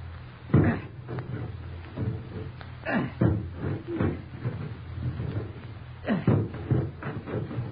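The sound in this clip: An axe chops at a locked door in a radio drama, landing several heavy, dull thudding blows at uneven intervals, each with a splintering crack, over a low rumbling background.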